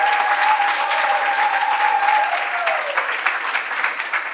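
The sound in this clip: Audience applause welcoming a guest to the stage: a steady, dense wash of clapping that stays loud and even throughout, easing only slightly toward the end.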